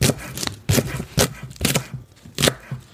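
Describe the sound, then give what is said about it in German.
A knife chops four spring onions into fine pieces, giving several sharp, irregularly spaced chopping strikes, each a short percussive thud. No talk is heard over them. “Schneiden wir jetzt auch immer eben die auch möglichst fein. Klein schneiden.”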